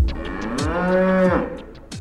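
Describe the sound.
An Aberdeen Angus cow moos on a farm in Forfar, Angus, from a herd revived with frozen semen from the 1960s. A single long, loud, low call sits over sparse background clicks, and its pitch drops as it ends.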